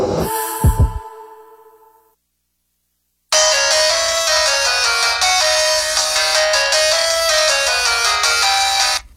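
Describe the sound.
A telephone ringtone plays as a loud, continuous bright melody. Before it, a short fading musical tail with two low thumps drops into a brief silence. No voices.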